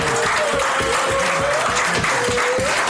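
Audience applause: a steady, dense wash of clapping that stays loud and even throughout.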